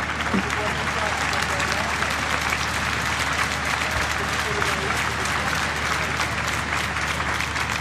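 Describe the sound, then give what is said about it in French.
A large crowd at a papal mass applauds in a continuous, dense wash of clapping that stays at an even, moderate level, with a murmur of crowd voices beneath it. “Et on entend la foule et la joie,”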